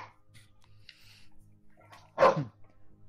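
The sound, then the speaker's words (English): A dog gives a single sharp, fairly loud bark against a quiet background with a faint low hum and scattered small noises. There is no talk. “Is that somebody's dog?”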